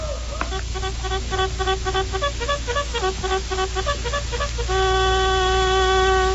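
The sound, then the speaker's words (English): Bugle call announcing an approaching cavalry troop in a Western setting: a brassy run of short, evenly spaced notes, ending on one long, loud sustained tone. “Did I really hear that? A bugle.”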